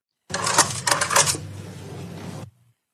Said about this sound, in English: That sounds like swiping a credit card. That's exactly right. You got that one right. That's the credit card.